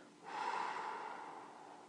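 Deep breath out during a guided grounding breathing exercise: one long, soft, airy exhale that swells quickly and then slowly tapers, with no talking.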